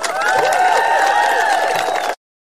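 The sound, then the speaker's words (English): Audience applause and cheering in a standing ovation, a dense, steady wash of clapping with raised voices that holds for about two seconds and then cuts off abruptly. “All 12 people in the audience giving her a standing ovation.”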